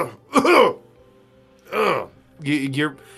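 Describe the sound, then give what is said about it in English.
Harsh coughing and throat clearing from a person acting out a character choking on smoke in a tabletop role-playing game: three separate voiced bursts, moderately loud, with short pauses between them. “the more your eyes begin to burn and your vision starts to blur. And you just start coughing.”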